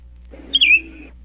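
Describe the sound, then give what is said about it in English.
A mockingbird call: one brief, high, clear whistled note with a slight pitch sweep and bright overtones. It lasts about half a second over a low, steady background hum. “there is a great and wonderful lesson to be learned from these little birds like Billy the Mockingbird”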